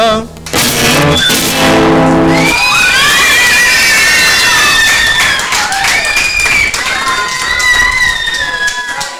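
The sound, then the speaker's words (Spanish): Audience applause and cheering at a concert, a dense, loud, continuous wash of clapping with whistle-like tones and voices mixed in, following a brief stretch of music at the start. “Muchas gracias, pues, por los aplausos.”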